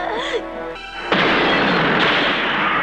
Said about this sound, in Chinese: 机灵的珍妮在爆炸时躲在沙发底下，才幸免于死。